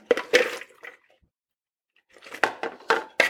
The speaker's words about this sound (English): So I'm gonna drain this fennel and then just stick it back in its original bowl.